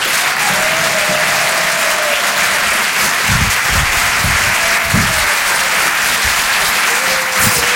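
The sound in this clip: Audience applause welcoming a comedian onto the stage at a comedy club: a steady, dense wash of clapping that holds at the same loud level from start to finish.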